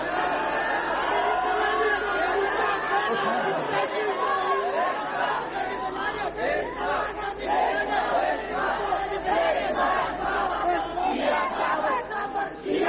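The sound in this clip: A large crowd shouting slogans at a gathering, forming a dense, continuous roar of many overlapping voices that stays steady and loud from start to finish with no clear breaks.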